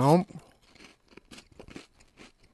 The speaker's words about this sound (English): so the last one, just the regular plain old Kit Kat. Opening up the wrapper here. Gonna sample.